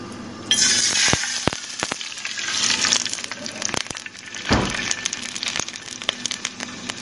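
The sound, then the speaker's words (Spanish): Chicken pieces coated in flour fry in hot oil in a pan over medium heat, giving a steady bright sizzle with a few sharp clinks on top. “Dejamos que comience a calentar el aceite y pasamos los pedazos de pollo de parte en parte por la mezcla de harina y lo introducimos al sartén.”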